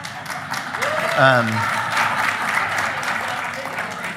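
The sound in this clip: Audience applause rises as a steady, dense patter of many clapping hands that holds loud for the whole stretch. A single voice calls out briefly above it near the start.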